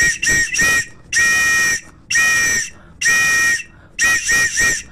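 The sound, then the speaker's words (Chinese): A shrill safety whistle is blown as a distress signal, loud and alone: three short blasts, three long blasts, then three short blasts again. “我刚刚吹的这个就只是为了把这个哨子吹响，让他听那个声音。”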